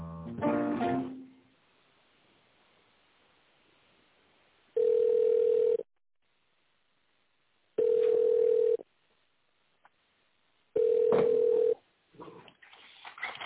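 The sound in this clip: Ringback tone on a telephone line while a caller waits on hold to be connected to a property management company's specialist: three steady, mid-pitched beeps about a second long, separated by silent gaps, with brief talk at the start and end.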